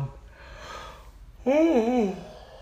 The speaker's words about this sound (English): I'm sorry. I've been yawning too much, dude.